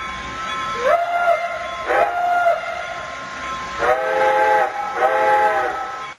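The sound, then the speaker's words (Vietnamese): A steam train whistles as it departs, giving four loud blasts over a continuous rumble of rail noise. The first two blasts are shorter and the last two longer and fuller, with no talk. “Xe lửa chạy rồi”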